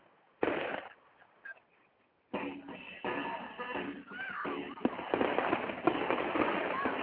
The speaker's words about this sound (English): I don't know what to watch. Bull rider or the fireworks?